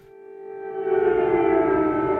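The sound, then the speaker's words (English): An air raid siren sounds in the city of Dnipro during wartime: a steady wailing tone with strong harmonics that swells in loudness, then holds. “In Dnipro, the air raid sirens are never quiet for long.”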